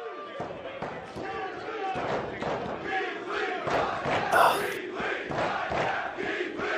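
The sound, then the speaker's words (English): A pro wrestling arena crowd trades loud, rhythmic dueling chants, many voices shouting in continuous waves with thumps and cheers mixed in. “Dueling chants, you love to see it.”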